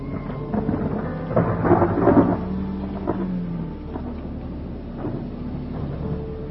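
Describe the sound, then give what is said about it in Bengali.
A heavy downpour of rain in Dhaka while driving through city traffic: a dense, steady wash of rain noise over a deep, rolling rumble, loudest early on and then continuing evenly, with no talk. “এই যা, বলতে না বলতেই বৃষ্টি শুরু। অনেক দিন পর এরকম ঝুম বৃষ্টি হচ্ছে”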